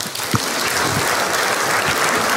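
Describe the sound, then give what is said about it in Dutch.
Audience applause for a guest on a Dutch show: a dense, even wash of many hands clapping, loud and unbroken from start to finish with no talk over it. “Graag een applaus voor Jasper Posson.”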